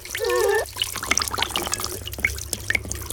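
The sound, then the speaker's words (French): Water runs from a salon sink tap onto hair at a white hair-washing basin, a soft continuous trickle with scattered small drips, fairly faint. “L'eau coule doucement sur les cheveux.”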